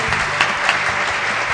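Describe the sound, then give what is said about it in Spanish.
An audience at a Spanish-language show keeps clapping at the host's request, producing brisk, dense applause with a few sharper claps standing out from the steady roar. “Ah, bueno, otros aplausos más, por favor. Otro. No da más con la mano.”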